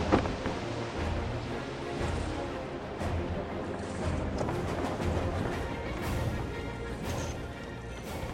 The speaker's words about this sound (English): Look, Captain, the wind's picking up.